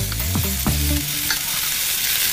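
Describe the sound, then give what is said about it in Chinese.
Sizzling and stirring of cured pork slices and arrowhead slices in a pan: a continuous loud frying hiss with scraping stir strokes, alone with no voices. “接下来锅中直接放入第二份腊肉片，再倒入炒过的茨菇片，加少许清水，小火焖煮约两分钟收汁”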